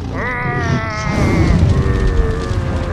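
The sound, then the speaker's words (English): A dragon breathing fire: a loud, continuous roaring blast that opens with a howling tone falling in pitch, then swells into a deep, rumbling rush lasting about three seconds. “Oh no! Watch out for his fire breath!”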